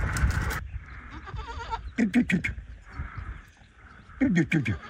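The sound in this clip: Lambs and goat kids with disabled legs, kept apart from the flock at a village in Yüksekova, bleat in a few short, wavering cries over people talking.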